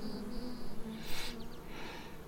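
Bees buzz faintly at a beehive, a low continuous hum with a thinner high whine above it and a brief rustling burst in the middle.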